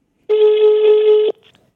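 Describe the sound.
Telephone ringing as a call is placed: a single steady, buzzing ring tone lasting about a second, followed by a few faint, brief clicks.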